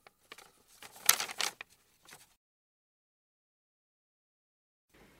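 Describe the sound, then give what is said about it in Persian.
Paper rustling as a book is opened and its pages are turned: a cluster of crinkly, uneven rustles and soft handling over about two seconds, then silence. “حالا که هممون مستقر شدیم بیان این کتاب رو باز کنیم”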